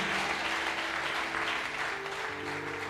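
Church audience clapping, a steady, even burst of applause lasting about three seconds with faint tones underneath.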